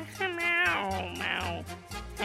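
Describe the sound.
Cat meowing: drawn-out, wavering meows with sliding pitch, fairly faint, over a low steady hum.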